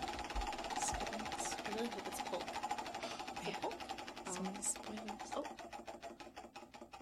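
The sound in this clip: A prize wheel spinning, its ratchet clicking in a rapid rattle that gradually slows toward the end, with people talking over it.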